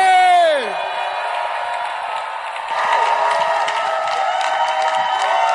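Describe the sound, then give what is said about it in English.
Church audience cheering and clapping as a bishop is welcomed to the pulpit. A loud whoop falls in pitch at the start, then sustained crowd noise and applause swell partway through. “If you're excited as I am, make some Holy Ghost noise. Clap your hands as we welcome to the pulpit, Bishop Richard Aye!”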